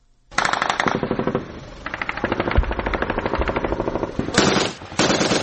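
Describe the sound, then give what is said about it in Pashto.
Light and heavy gunfire from a clash between Afghan security forces and Islamic State militants in the Sayed Ahmad Khel area of Kot district: loud, rapid machine-gun bursts rattle almost without pause, with a couple of brief lulls and no voices. “دا د کوټ ولسوالۍ د سید احمد خیلو په سیمه کې د افغان امنیتي ځواکونو او د داعش وسلوالو ترمن د مخامخ جګړې د سپکو او درنو ډزو غږونه دي.”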